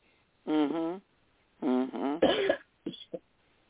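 Throat clearing: a few rough, voiced rasps with wavering pitch, then a harsher noisy scrape and two short, clipped catches at the end, separated by brief silences.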